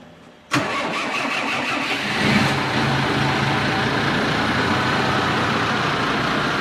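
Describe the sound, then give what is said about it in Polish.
Failed start attempt on an old car's engine, its first start in a very long time: a sudden loud onset followed by steady, rough mechanical churning that continues unbroken for about six seconds, with no voices. “Dobra, będzie odpalany. Uwaga. Posłuchajmy pierwszego odpalenia od bardzo długiego czasu. Nieudane.”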